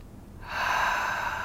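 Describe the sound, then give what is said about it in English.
One deep breath is drawn in after a brief quiet moment: a steady, airy, fairly loud inhale that holds for about a second, with no talk. “Nice deep breath.”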